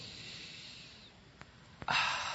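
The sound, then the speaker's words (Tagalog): A deep breath taken on cue, a soft, airy hiss of breathing followed by a louder, breathy rush of air near the end. “Pwede bang huminga ka ng malalim?”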